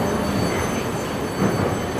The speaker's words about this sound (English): Emily Fang, takes us on a ride along Beijing's Line 2 subway, which traces an unexpected history